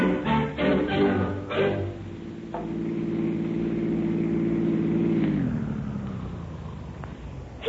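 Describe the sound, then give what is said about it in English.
A car engine drones as someone is driven home: a low, steady hum holds for several seconds, then drops in pitch as the car slows. “Come on, you better let me drive you home.”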